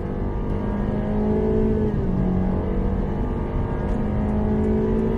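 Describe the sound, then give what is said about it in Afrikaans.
A Honda 1.8-litre car with a CVT automatic accelerates at full throttle. The loud, sustained engine drone shifts in pitch partway through, like a stepped gear change, then carries on steadily. “Die CVT outomaties skep kunsmatig ratte wanneer jy voluit wegtrek.”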